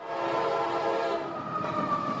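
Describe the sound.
A MARC commuter rail train passing, the kind ridden daily between Gaithersburg and Silver Spring, with a loud, steady horn chord sounding over a continuous rumbling roar for the whole stretch.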